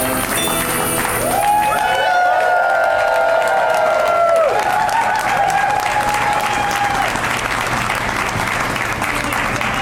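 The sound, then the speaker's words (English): Audience applause and cheering after a Christmas song, a thick wash of loud clapping with whoops and shouted cheers riding over it throughout. “Isn't that weird? The Christmas song is so hard to clap along to.”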